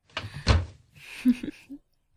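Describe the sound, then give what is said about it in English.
A door is shut with one short, solid thump, followed by a few faint knocks and clicks. “Shut the door.”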